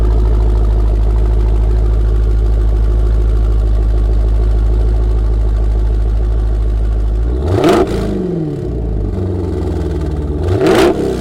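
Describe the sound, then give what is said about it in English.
An S-Type car engine idles with a loud, steady, low rumble for several seconds, then is revved in two sharp blips that rise and fall quickly, with a brief settle between them. “You want to get in it real quick and just hit the revs? All right, we're going to hear what it sounds like.”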